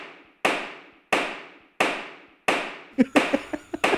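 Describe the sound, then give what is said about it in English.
Sharp cracks of a baseball bat striking balls during batting practice: four evenly spaced, loud hits with short ringing decays, followed by a quicker flurry of several shorter knocks. “That's actually just the sound of him taking batting practice.”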